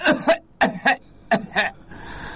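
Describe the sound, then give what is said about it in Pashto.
A patient coughs on request during a medical check for a stomach ache. Six short, fairly soft coughs come in three evenly spaced pairs, followed by a low steady background noise. “وټوخېږه په زوره لږ”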